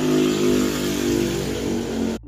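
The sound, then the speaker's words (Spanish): A motorcycle passes outside, its loud, steady engine roar swelling slightly for about two seconds before cutting off abruptly into near silence. “es que pasó una moto en ese momento y yo estaba acá afuera intentando grabar”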